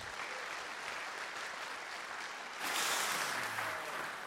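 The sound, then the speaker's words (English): A church audience applauds to welcome a visiting missionary guest. The clapping is steady and even, then swells a little louder partway through and stays there to the end. “I want to welcome this morning Philip Bryant. Let's give him a hand.”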